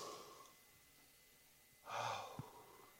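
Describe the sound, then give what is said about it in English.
A single deep breath, drawn during a sermon, heard as one loud, sigh-like rush of air that stands out against a quiet background with no talking. “Just take a deep breath right now.”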